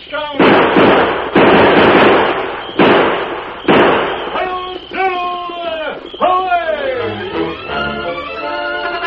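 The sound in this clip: Gunfire sound effect from a radio drama as the gang flees over a bank: four sharp, loud shot bursts spaced roughly a second apart, followed by voices.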